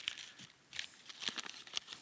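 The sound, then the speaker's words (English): Paper crinkling and rustling as a sheet is folded into a paper boat: faint, short bursts of crackling separated by a brief quiet pause. “And you should have, from the corners, a boat. Mine did not fold really good right there”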